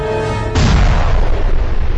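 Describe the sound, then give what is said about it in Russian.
A hunting rifle gunshot fires as one sudden, loud blast. It cuts off a short tonal passage and rolls on as heavy, broad rumbling noise to the end. “Вдруг у него за спиной словно ударил гром, и красный огонь опалил ему шерстку. Это большой человек, разбуженный шумом, прибежал с охотничьим ружьем, выстрелил и перебил Нага надвое.”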